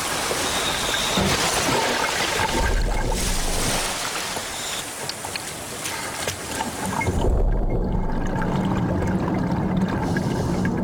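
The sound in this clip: Diver entering the water for an underwater dive, a continuous rushing wash of water and bubbling that holds for about eleven seconds, with a brief dip in loudness partway through.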